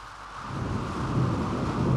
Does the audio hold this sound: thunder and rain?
yes